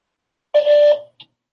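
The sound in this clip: A voicemail beep tone sounds once, a steady mid-pitched electronic note lasting about half a second at moderate loudness, followed by a brief faint blip, with silence before and after.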